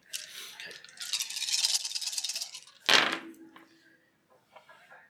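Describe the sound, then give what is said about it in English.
Dice for a tabletop role-playing game, including a stress die, rattle in a hand for a few seconds. One sharp clatter follows as they are thrown, then faint small knocks, all fairly quiet. “Take a stress die and then roll all the rest.”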